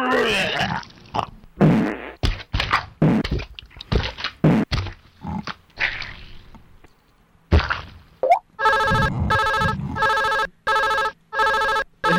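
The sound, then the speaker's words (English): A mobile phone ringtone plays as a bright, stacked electronic tone in quick repeated bursts, coming in after a stretch of other irregular sounds. “Hang on, guys, that's my phone.”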